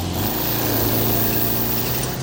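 A car engine drones as the car drives off, a loud, steady low hum with a rich layered tone that lifts slightly at the end.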